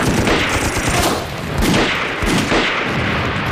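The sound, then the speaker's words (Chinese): An exchange of gunfire rages with dense, rapid shots from both sides, merging into a continuous loud crackle and pop that barely lets up throughout. “他们至少有两个人盯着我们，我们一开枪，他们就开枪了。”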